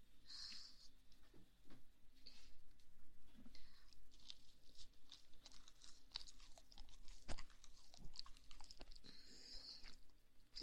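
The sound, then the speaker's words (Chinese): Chewing and crunching from someone eating a homemade sandwich: many soft, irregular bites and mouth clicks, faint and close, with no voices heard. “今天吃什么？ 哇， 三明治。”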